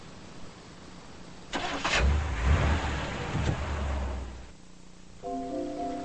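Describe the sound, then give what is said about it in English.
A car engine starts, a burst of cranking giving way to a louder rough rumble that holds for a couple of seconds, then dies down to a quiet background. “With his deputy beside him, Stick starts the car.”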